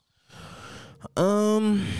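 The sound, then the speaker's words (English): Heavy breathing close into a microphone: a long, loud, airy exhale, then a brief pause and a louder voiced sigh that holds steady before trailing off. “Yeah, breathe louder into the mic.”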